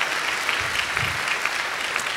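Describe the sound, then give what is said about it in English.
An audience claps steadily to welcome online viewers joining the event. The applause is a dense, even patter that holds at a moderate level throughout, with no voices over it. “So put your hands together. Let's welcome all those people that are joining us.”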